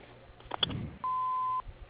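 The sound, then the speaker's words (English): Answering machine beep: one steady, mid-pitched electronic tone lasting about half a second, heard clearly over faint telephone-line hiss after a brief soft clatter. “please leave your name and message after the beep.”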